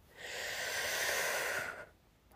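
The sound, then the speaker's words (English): A single deep breath in through the mouth makes a steady, airy rush that lasts well over a second, then stops abruptly, heard alone and fairly soft. “Take a deep breath in”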